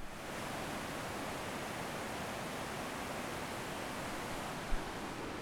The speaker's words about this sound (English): That is the sound of the Rio Pepino, which, with my bad Spanish, I've translated to Cucumber River.